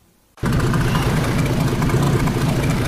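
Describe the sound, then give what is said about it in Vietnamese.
Fishing boat engines at a fishing port in De Di, Gia Lai province, start abruptly after a brief quiet and settle into a loud, steady, low rumble. “Tiếng sóng biển hòa cùng tiếng máy tàu tại khu vực cảng cá Đề Di, tỉnh Gia Lai”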